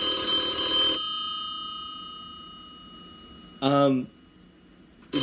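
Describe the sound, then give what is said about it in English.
A telephone bell rings for an incoming caller: a bright, loud ring that fades away slowly, followed by a brief tonal burst and the start of another ring. “we have a caller? It says Maryland, D.C. area?”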